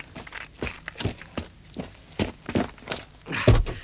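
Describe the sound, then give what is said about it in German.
Footsteps of people walking back into a house: a steady run of soft, evenly spaced thuds, ending with a louder, heavier thump. “Sie gehen wieder ins Haus.”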